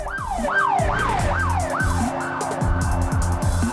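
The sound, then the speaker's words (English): Police patrol car sirens wail in repeated rising-and-falling sweeps, several cycles in a row, loud and continuous as the cars drive past, with faint vehicle noise underneath. “Sam grins to himself as more police patrols drive straight past him”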